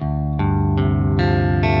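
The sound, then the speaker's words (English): Electric guitar open strings tuned down a whole step to D G C F A D, with heavy effects: strings struck in turn from low to high, each ringing on and stacking into a dense, sustained, shimmering chord. “But if you tune the guitar to D, you just tune everything down a whole step, you get D, G, C, F, A, D, which sounds like this.”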